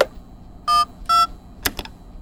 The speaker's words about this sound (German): Kurz entschlossen hob sie den Telefonhörer ab und wählte eine interne Nummer.